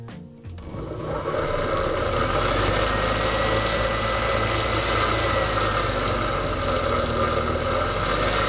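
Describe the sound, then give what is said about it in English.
A car alternator runs as a brushless motor, driven from a servo tester with voltage on its field. It spins up in the first second into a loud, steady whirring hum with a thin high whine above it. “Here you can see I'm controlling the brushless motor with a servo tester. If I hook up the alternator in place of the brushless motor and apply a voltage to the field, you can see it operates the same way.”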